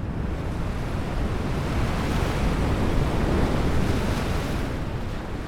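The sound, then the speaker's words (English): Wind and a big wave surge together in a loud, steady roar of rushing wind and crashing water that holds its level for the whole stretch, with no voices. “But then, just when Peter was almost to Jesus, a great big gush of wind blew and a big wave was coming.”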